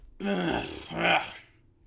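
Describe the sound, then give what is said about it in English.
A man's voice imitates the grunting cough men make in a bathroom: a throaty, guttural sound, half cough and half grunt, drawn out over about a second with two swells in loudness. “it's like kind of a cough, but more of a grunt.”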